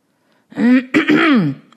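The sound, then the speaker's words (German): A person clears their throat loudly in two quick voiced rasping bursts, the second longer and wavering in pitch, with silence before and nothing else heard. “Jemand räusperte sich vernehmlich.”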